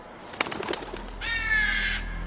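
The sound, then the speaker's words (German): A bird calls: a few short soft clicks, then a sustained, high, bright whistling note lasting just under a second, faint and alone. “Guck mal, Mama, ich habe gerade einen Vogel gefilmt.”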